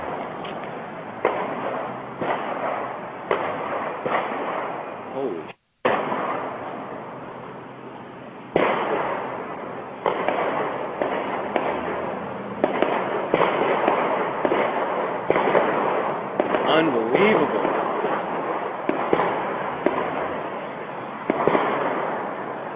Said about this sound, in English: Take a listen. Oh, shooting outside of a Las Vegas courthouse.